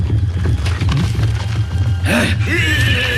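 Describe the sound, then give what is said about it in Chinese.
Horses ridden at speed in pursuit as mounted Xiongnu warriors chase a fleeing young prince, heard as a dense, continuous rumble of hooves and rushing noise with a brief higher tonal cry late in the passage. “他跑不了，我们骑马去追。”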